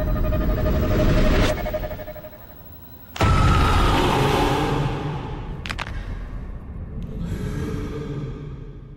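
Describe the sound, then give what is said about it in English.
Closing moments of the trailer for the horror film The Vigil: dark, rumbling sound design with sharp hits and sudden cuts to near silence, then a quieter, eerie, breathy tail. “All right, so that was the trailer for The Vigil.”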